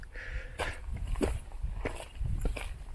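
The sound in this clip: Footsteps walking up an inclined but flat old carriage road without steps, a steady, regular pace of footfalls over a continuous rough background noise.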